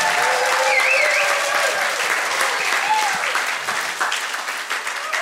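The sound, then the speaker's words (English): Audience applause welcoming a speaker to the stage: loud, dense clapping with a short whistle early on, thinning gradually into scattered claps by the end. “Why don't we put our hands together and welcome Liam to the stage.”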